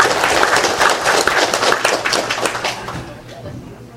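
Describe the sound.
An audience claps at a Buddhist refuge ceremony. Quick, dense hand claps patter steadily at first, then thin out and fade toward the end, leaving a quieter tail.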